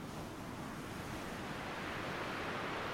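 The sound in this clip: Ocean waves and wind: a steady, dense rush of surf with wind noise that holds an even level throughout, with no voices.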